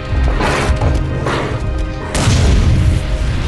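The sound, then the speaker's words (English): A green-flaming lighter explodes in a tunnel with heavy, deep booms and crashing bursts; several blasts roll through a constant low rumble, the loudest arriving near the end. “The green flaming lighter explodes in the tunnel.”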